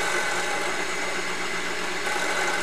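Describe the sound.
An electric coffee grinder grinds beans for espresso, giving a loud, steady, even whir that holds unchanged throughout with no other sounds.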